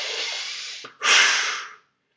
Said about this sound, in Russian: Сделайте глубокий вдох носом и сильный выдох ртом.